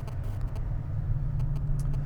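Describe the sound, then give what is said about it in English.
A car drives through rush hour traffic, heard from inside, with a steady low rumble of engine and road noise. A few faint, brief high ticks sit over the rumble, and no one speaks. “I'm driving in rush hour traffic right now.”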